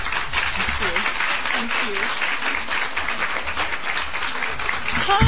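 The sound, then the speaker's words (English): An audience applauds to welcome author Sophie Kinsella at a book event in Denver, with continuous, even clapping that swells slightly at the close. “Please give a warm welcome to Sophie Kinsella.”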